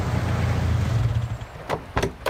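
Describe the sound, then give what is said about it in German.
A car approaches, a low engine rumble for about a second and a half that then drops away, followed by three sharp clunks. “Geh mal ein bisschen an den Rand, da kommt dein Auto.”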